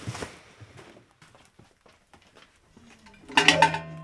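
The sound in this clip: A cooking pot is handled while ash is prepared for washing sheep's wool: faint scattered shuffling, then a loud metallic clatter with ringing overtones near the end.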